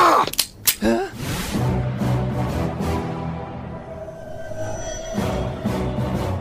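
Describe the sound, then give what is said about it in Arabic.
A few sharp, cracking gunshots open a radio drama shootout, followed by a sustained tonal music bed. “إنهم يطلقون النار تجاهي. مهما يكن، سأتبادل معهم إطلاق النار”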